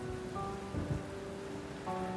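Steady rain hisses through a thunderstorm while a low rumble of thunder briefly swells, and faint sustained tones hold beneath the downpour.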